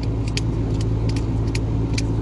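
Steady road noise of a car being driven, a continuous low rumble that stays even throughout with no voices.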